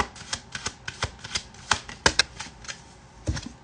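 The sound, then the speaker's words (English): Tarot cards being shuffled and one pulled from the deck: many crisp, papery snaps and flicks in an uneven rhythm, some louder than others, with no talk. “You would love a card? Yeah, let's pull this. This will be the last card of the day.”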